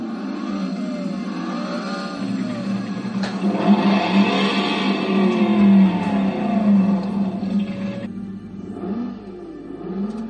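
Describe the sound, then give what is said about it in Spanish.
Engine of a black sports car roaring as it accelerates, a steady revving rumble that swells for several seconds and then drops away abruptly, leaving a fainter engine tone. “un vehículo negro deportivo bastante llamativo hizo que todos girasen la mirada.”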